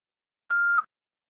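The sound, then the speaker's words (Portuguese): A voicemail recording tone: one short, steady mid-pitched beep that dips slightly at its end, alone in silence. “Após o sinal, fale o seu nome e deixe seu recado.”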